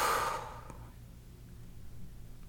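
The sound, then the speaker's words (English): A deep exhale during a guided relaxation breathing exercise: a breathy rush of air at the start that fades within about half a second, leaving near-silence and a faint low hum. “Exhale, let it go. Again, take another deep inhale. Exhale, let it go.”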